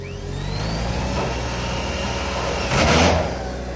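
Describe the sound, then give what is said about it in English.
A generator runs with a steady, dense engine drone while screws are driven into a sun shelter in the shadeless desert. A louder whirring burst rises near the end over the constant hum. “runs a generator and drives screws into a sun shelter”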